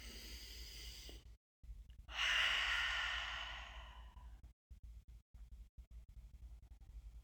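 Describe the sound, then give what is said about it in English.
A deep breath taken during a guided prayer circle: one long, airy, rushing breath swells suddenly, then slowly fades over a couple of seconds, heard alone above a low steady hum. “I'm going to take a deep breath first.”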